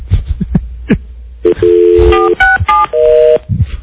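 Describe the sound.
Touch-tone telephone dialing: a rapid run of several electronic keypad beeps, some clipped and some held longer, each at a different pitch, with a few soft thumps before them and no voices.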